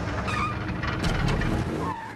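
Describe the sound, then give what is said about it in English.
A car speeds away as its driver pulls off, with a loud, steady engine roar and road noise that hold throughout with no pause. “The woman in her 40s slumps into the driver's seat and speeds away.”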